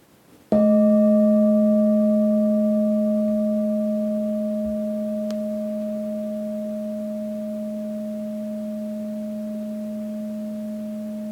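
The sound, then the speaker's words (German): A singing bowl is struck once to open a meditation. The sharp strike blooms into a rich, sustained hum of layered tones that fades very slowly and rings on alone to the end. “Die Meditation beginnt mit dem Klang der Klangschale.”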